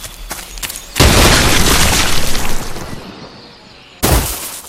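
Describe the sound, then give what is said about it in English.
A landmine blast in a video game as the player steps on his own mine: a few faint clicks, then a loud boom with a long rumbling decay, followed by a second sharp burst near the end. “Now, I think to end this, I'm going to step on my own mine.”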